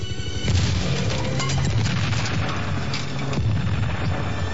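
A helicopter crashing: a loud, continuous roar of crashing and rumbling noise that fills the whole few seconds without a break, with no voices over it.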